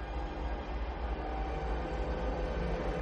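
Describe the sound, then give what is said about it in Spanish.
A train passes with a loud, steady rumble that holds evenly from start to end, with no clear horn or other distinct events on top and no voices. “El tren pasa de largo.”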